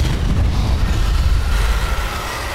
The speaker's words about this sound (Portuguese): o Sandoval lança uma bola de fogo. A bola de fogo passa do lado da cabeça do Verne Veron, do lado da cabeça do Erevan.